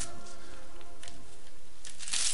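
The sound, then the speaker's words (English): Paper or plastic packaging being ripped open by hand, heard as a few crinkly, papery tearing bursts with a loud, sharp rip near the end. “You didn't have to do that. I ripped it open.”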